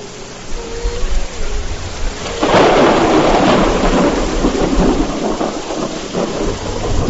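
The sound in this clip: A thunderstorm with heavy rain and loud thunder: after a quieter opening, a dense, loud roar of downpour and rumbling thunder breaks in and holds steady to the end.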